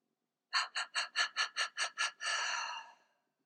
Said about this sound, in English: Trua, the many breaths. Inhale, renewal. Exhale what no longer serves you.